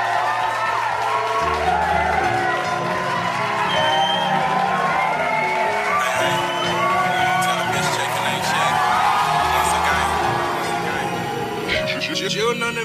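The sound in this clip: Audience cheering and whooping for musical guests as a bass-heavy hip-hop beat plays underneath. Shouts and cheers continue at a steady, loud level throughout.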